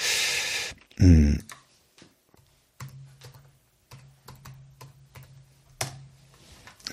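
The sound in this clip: Typing on a computer keyboard to run a web search: irregular clicks with short pauses between bursts, and one louder clattering burst near the start, with no one talking.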